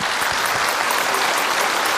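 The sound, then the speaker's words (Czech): Audience applause fills a congress centre at an awards evening for a national radio poll: dense, loud, even clapping, sustained without a break. “Ještě jednou si zatleskejte, dobrý večer.”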